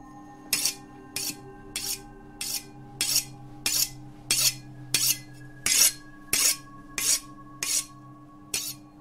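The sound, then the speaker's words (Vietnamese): A sharp knife blade is drawn across a whetstone in slow, careful strokes. About a dozen raspy, high-pitched scrapes are evenly spaced, with short quiet gaps between them and a faint low hum underneath. “Cẩn thận quẹt từng đường dao sắc lẹm lên trên hòn đá mài, tỉ mỉ từng ly từng tí, phát ra những âm thanh rin rít đến rợn người.”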